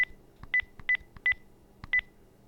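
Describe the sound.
Telephone keypad tones punch in an account number: a quick series of short, bright beeps in uneven clusters, clean and steady in level with no talking.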